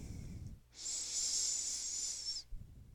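A slow breath in during a yoga stretch, a soft, steady airy hiss lasting nearly two seconds, faint and heard alone.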